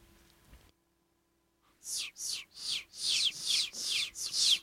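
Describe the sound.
Chicks on a farm peep in a quick series of high, downward-sweeping chirps. They are loud and heard alone after a brief silence.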